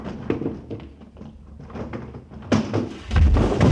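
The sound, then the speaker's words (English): A Murphy bed falling down in an old radio comedy: a run of scattered knocks and rattles, then a sharp clatter that swells into a heavy, booming crash of low thuds at the end. “What happened? What fell? Oh, just that Murphy bed.”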